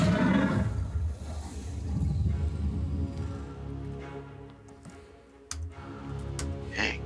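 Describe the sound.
A creature's roar, used as a sound effect in a combat scene of a tabletop role-playing game: a deep, rumbling growl that swells and then trails off, with a few sharp clicks near the end.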